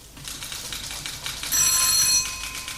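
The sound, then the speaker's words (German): Telephone bells ringing in a shipping line's office in New York, a shrill, rapid metallic trill that rises out of a steady, crackly background for under a second and then stops. “Seit den frühen Morgenstunden schrillen im Büro des norddeutschen Lloyd in New York unablässig die Telefone.”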